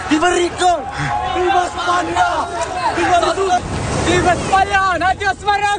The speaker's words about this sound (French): C'était le chaos ce matin à Ceuta. Ce que vous entendez, c'est l'arrivée par la mer de milliers de migrants qui ont franchi la frontière entre le Maroc et l'Espagne, certains à la nage.